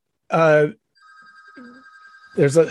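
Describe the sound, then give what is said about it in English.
A telephone rings with a steady, fairly faint electronic tone, heard between stretches of a person talking. “hang on a second. Let me just see if that should stop ringing.”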